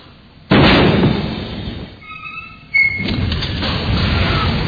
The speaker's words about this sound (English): that first sound you heard was the sound of my torpedo tubes being loaded, or one of my torpedo tubes being loaded, and the second noise was the destroyer blowing up